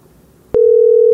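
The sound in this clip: Telephone dial tone while calling a number: after a short near-silence, a click starts a loud, steady single-pitched tone that holds unchanged to the end.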